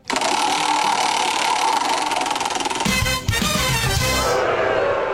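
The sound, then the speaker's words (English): A prize wheel spins in a rapid, continuous run of loud ticking that stays dense and steady. The texture changes partway through as the spin goes on. “Let's spin the wheel, see what we're playing on a Wednesday afternoon.”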